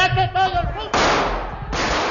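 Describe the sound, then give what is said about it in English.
Gunfire during the 1981 coup in the Spanish Parliament, with soldiers firing into the air: a voice at the start gives way to two long, harsh stretches of rapid shots. “Politicians cowered and were shoved around as members of the Spanish armed forces fired in the air and seized control of Parliament.”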